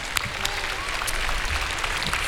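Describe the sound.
Applause from a concert audience, a dense and steady wash of many hands clapping at an even loudness throughout, with no clear talk over it.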